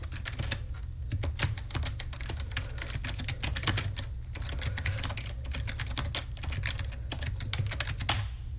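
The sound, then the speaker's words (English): Rapid typing on a computer keyboard: many irregular keystroke clicks in a continuous clatter over a low steady hum, with no talk. “I'm gonna have to type the path manually anyway.”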